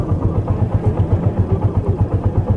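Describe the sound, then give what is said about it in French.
Motorcycle engines run at the northern station of Bujumbura, a low, rhythmic chugging pulse that throbs steadily and evenly throughout, with no voices over it. “Arrivé à la gare du Nord, vous êtes accueilli par la circulation des motos provenant dans différents endroits.”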